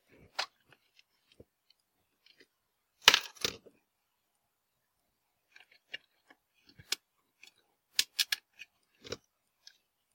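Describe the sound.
Screws being handled while reassembling the housing of a dead ethernet switch: sparse small metallic clicks and ticks, a brief rattling cluster, then several more scattered taps and clicks.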